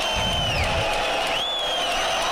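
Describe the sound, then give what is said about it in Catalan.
Basketball crowd giving an ovation during a player substitution late in a close Supercopa ACB final, a loud, steady, dense roar of many voices that holds without a break from start to finish. “I ara el canvi de l'Apro Vítola perquè tothom l'ovacioni.”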